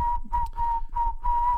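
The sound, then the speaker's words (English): Someone whistling a tune, a clear pure tone broken into a few held notes of fairly steady pitch, separated by short gaps with soft breathy noise between them. “Like I feel like I should be walking slow and whistling.”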